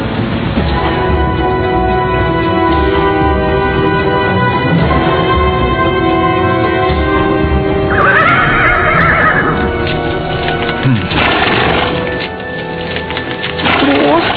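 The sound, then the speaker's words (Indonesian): Horse neighing and hooves clip-clopping as two riders sit on its back: a couple of loud, shrill whinnies rise over a dense, continuous clatter of hoofbeats. “Sekarang mereka berdua sudah duduk di atas kuda.”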